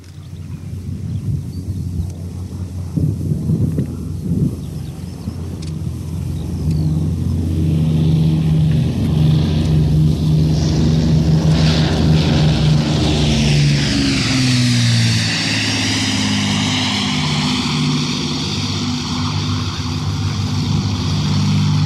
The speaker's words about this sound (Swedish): Vi får nu höra två överflygningar med Avro Lancaster som kallas för City of Lincoln, det enda kvarvarande flygdugliga exemplaret.